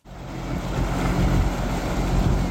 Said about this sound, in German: Da fährt sie, die schwimmende Bühne für die Eröffnungsfeier, mit Schleppern einmal über den Maschsee gezogen bis ans Nordufer.